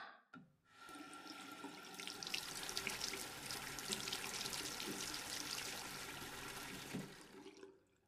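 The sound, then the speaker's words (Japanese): Hot water runs steadily from a tap into a washbasin, making a continuous, even rush of splashing that lasts about seven seconds before tapering off. No one speaks. “ちょうどいい温度だね。このお湯を張った洗面器に洗剤を入れて”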